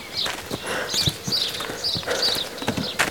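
Hooves clip-clop steadily from a horse-drawn carriage, many even hoofbeats in a regular walking rhythm with some faint high jingling over the top.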